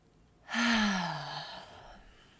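One deep breath let out as a long, audible sigh with a faint voiced tone that slowly drops in pitch, starting strongly and fading out gradually, alone without talk.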